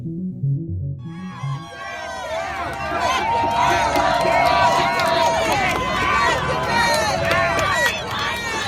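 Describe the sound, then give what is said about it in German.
A crowd celebrating in the streets of Washington D.C., with loud, continuous cheering, shouting and whoops that swell after a quieter opening and stay dense to the end. “Ja, so klang das am Wochenende in Washington D.C. Das klingt nach Feiern, nach Erleichterung, nach Freude.”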